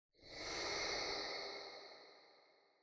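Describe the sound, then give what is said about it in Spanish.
A single long exhale through one nostril during a nostril-breathing exercise, a soft breathy hiss that swells quickly and then fades away slowly. “Una vez más, toma aire por ese orificio y exhala todo el aire.”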